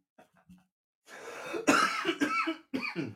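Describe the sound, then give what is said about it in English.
A person coughing close to a microphone: a few harsh, raspy bursts after a long breathy exhale, preceded by faint soft sounds. “we're gonna have to get you a cough button. Like just a button to hold down when I cough.”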